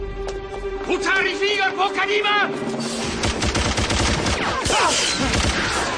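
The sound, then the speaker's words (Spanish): Rapid volleys of gunshots as hitmen empty their cartridges at a fleeing man on a cobbled street, sharp loud cracks crowding the second half alongside voices. “disparan contra Stefan que desaparece tras una esquina. Los sicarios asoman por la esquina y vacían los cartuchos.”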